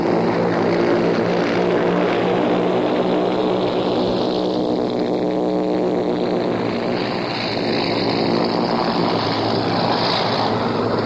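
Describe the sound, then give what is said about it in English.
Aircraft engines drone steadily and loudly as a plane takes off carrying British paratroops toward Europe. The propeller roar continues throughout with no talk. “Last aircraft of the first batch taking off to carry British paratroops into the continent of Europe has just left the station.”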